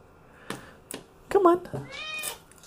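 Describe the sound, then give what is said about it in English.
A cat meows, a short rising-and-falling mew followed by a higher, drawn-out plaintive cry, faint and intermittent amid soft handling noises and a person speaking. “He's a good cat. But he's very meow meowy.”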